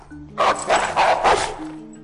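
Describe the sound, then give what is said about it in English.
A Rottweiler barks four times in quick succession, loud, deep and aggressive, with no talk over it. “Kevin looks back at a snarling Rottweiler.”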